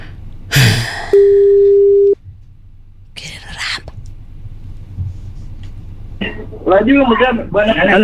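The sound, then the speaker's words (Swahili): Phone line tone as a call is placed: a single steady, mid-pitched tone lasting about a second, with people talking before and after it. “Tupige simu. Make that call. Let's call. Let's make that call.”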